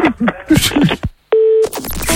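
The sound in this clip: A single steady telephone tone, about a third of a second long, sounds while a call is transferred, with talking before and after it.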